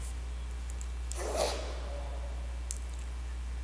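A single sneeze during a lesson, one short breathy burst that stands out above a quiet low hum, followed later by a tiny click.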